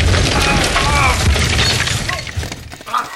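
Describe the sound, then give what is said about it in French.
A wall being smashed through and collapsing: a loud, dense, continuous crash of shattering and breaking debris that thins out and fades toward the end. “C'est quoi ces deux petits merdeux qui ont défoncé le mur”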